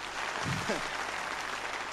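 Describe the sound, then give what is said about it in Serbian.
Applause at a music performance of romance songs: a steady wash of clapping, rather faint, with a voice heard briefly near the start. “Jedan aplauz.”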